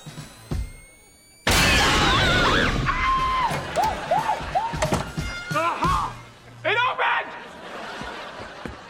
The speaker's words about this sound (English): Sacco got me a special C4 explosive charge from his cousin Boomer! Fire in the hole! Here we go.